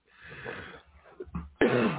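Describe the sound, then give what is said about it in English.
Coughing from a person: a raspy, breathy build-up followed by a sharp, loud burst near the end, with no talk. “I haven't coughed all day, and I get online for the radio, and I'm coughing profusely.”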